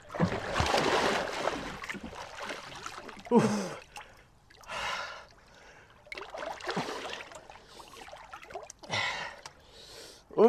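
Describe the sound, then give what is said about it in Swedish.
A person swimming in cold water, with irregular splashing strokes and gasping breaths coming in several uneven bursts, some sharper and louder than others. “Ja, då simmar jag lite grann.”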